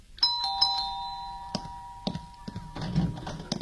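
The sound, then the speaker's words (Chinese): An electronic doorbell rings with clear chiming tones that sound together and then fade, followed by a few dull knocks and thuds. “朱永昌刚放下电话，门铃就响了起来”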